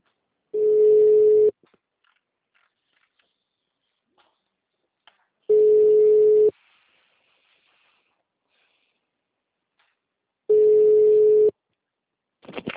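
A telephone ringback tone plays on an outgoing call: three steady one-second tones, each followed by about four seconds of near silence. The tones are clear and loud, with no talk over them.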